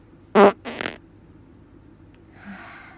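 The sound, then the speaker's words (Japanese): A fart released after bedtime stretching, one short loud burst followed by a softer fluttering one, then near silence with a faint rustle at the end. “たくさん動いたのでおならが出そうなので出したいと思います。”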